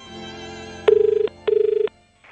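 An old telephone ringing in two short bursts of rapid, rattling bell strikes, each lasting under half a second with a brief gap between, over a low steady hum.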